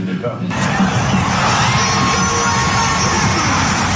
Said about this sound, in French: Vous l'entendez, les supporters des Spurs sont déjà bien chauds. Mais ça, c'était juste l'ambiance pour un match d'entraînement ouvert au public.